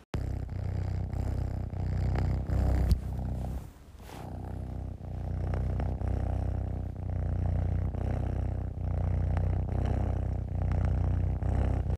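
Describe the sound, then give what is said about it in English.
A domestic cat sitting on a lap purrs in a steady, low, rhythmic rumble. Each breath cycle is evenly spaced, with one brief break partway through before the purr resumes. No voices are heard. “So what you just heard was my cat purring. He's actually sitting on my lap right now.”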